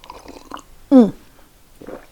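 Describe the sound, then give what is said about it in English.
A single brief, loud slurp of tea, with a wet sucking rush and a falling whistle-like tone, set between quieter murmuring sounds. “slurp of tea.”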